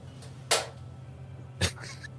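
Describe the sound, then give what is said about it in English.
A pet cat makes two short, sharp noises about a second apart over a steady low hum, the second one carrying a faint tonal tail. “sorry, my cat was being goofy.”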